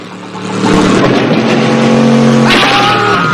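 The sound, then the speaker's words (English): A 4x4's engine revs hard as its wheels spin in mud, the loud roar swelling after a quieter start and holding strong, then shifting to a higher, brighter pitch near the end. “The wheels send mud flying as Juan heads back towards Zolo and his men.”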